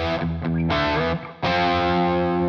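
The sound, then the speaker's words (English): Heavily distorted electric guitar plays a riff in standard E tuning: a few quick chord stabs with a brief dip in level, then a loud ringing chord sustained to the end. “here's the opening riff of the song just in standard tuning. So this is being played in E.”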